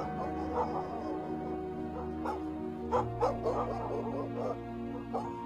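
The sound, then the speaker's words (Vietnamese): A pack of neighbours' dogs barks harshly, with fairly faint yapping barks and whimpers coming at irregular intervals over a steady, low droning tone. “Những tiếng lẩm bẩm tự trách của bà chìm trong tiếng chó sủa râm ran của nhà hàng xóm. Bầy chó cứ thế mà chó sang bên này mà sủa. Nghe cái tiếng chó sủa hằn học lắm.”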